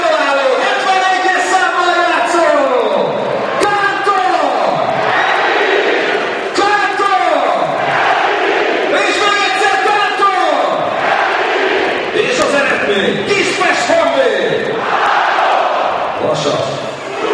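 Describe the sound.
A football crowd in Kispest celebrates a Honvéd goal against Vasas, chanting and roaring in loud rhythmic waves that answer the calls of an amplified stadium announcer throughout.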